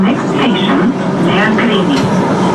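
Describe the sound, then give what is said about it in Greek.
A Thessaloniki Metro train on the new extension toward Kalamaria, riding from Nomarchia station to Mikra: a loud, constant rumble with voices talking over it throughout. “Ο Πρωθυπουργός φτάνει στο σταθμό Νομαρχία του Μετρό Θεσσαλονίκης που αποτελεί έναν από τους νέους σταθμούς της επέκτασης προς Καλαμαριά και επιβιβάζεται σε σερμό με προορισμό τον σταθμό Μίκρα.”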